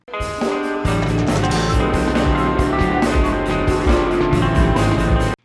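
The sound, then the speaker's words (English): Five different songs play at once in a dense, loud, continuous mix of overlapping music, with thumping beats and layered instruments clashing together throughout. “I start the podcast by playing all five songs I'm going to highlight at once for 5 seconds.”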